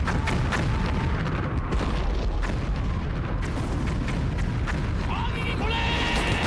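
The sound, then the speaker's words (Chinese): Artillery cannon fire shells a village during wartime as a dense, unbroken barrage of heavy booms and blasts. It rumbles loudly from start to finish, with shouting voices mixed in under the din. “火炮准备，目标村内火光”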